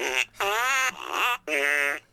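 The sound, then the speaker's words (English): A novelty fart piano plays fart sounds: a few short, buzzy, tonal blasts at differing pitches, fairly loud, each separated by brief gaps. “No, it's the fart piano. Fart piano! Everybody farts differently.”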